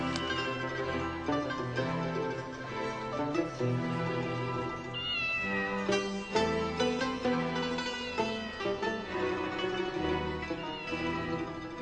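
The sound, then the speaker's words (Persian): A cat meows over and over in wavering, drawn-out cries that run continuously above a dense, steady background for about twelve seconds. “گربه زل خیره ای فروخ خانم جون, قربونت یه تیکه استخون بده بهش بره گم شه.”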